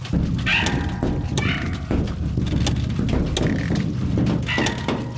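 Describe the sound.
Fingers rub and drum all over a washing machine to make music, producing a dense, continuous clatter of many sharp knocks and scraping rattles over a steady low rumble.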